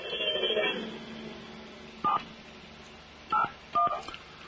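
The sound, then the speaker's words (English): Three short telephone keypad dialing tones sound at uneven intervals as a number is dialed, following a stretch of low, noisy background. “I'm going to dial you right now”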